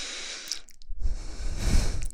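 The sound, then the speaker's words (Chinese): Breathing right up against the microphone, as if into the listener's ear: a soft airy hiss, a brief pause, then a closer breath that blows onto the mic with a low, rumbling puff. “可能呼吸吹到你的耳朵了。”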